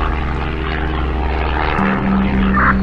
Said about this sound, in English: Take off was so nice. Even the flight is very stable.